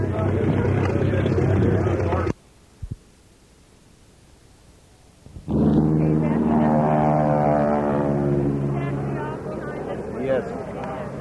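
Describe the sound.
A replica of the Mr. Mulligan, a famous 1930s racing airplane, powers up for takeoff at the Blakesburg fly-in. A loud engine drone cuts off abruptly and, after a short lull, a harsh roaring engine surges and stays strong.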